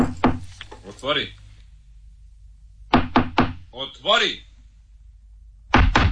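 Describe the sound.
Knocking on a wooden door comes in three bursts of a few sharp raps each. Short voiced calls fill the gaps between bursts, and the last burst is cut off at the end.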